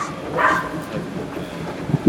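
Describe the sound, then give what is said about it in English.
A neighbour's dog barks next door beside a garden: a few faint, short barks over low background noise, with a slightly louder yelp at the end. “next door's dog”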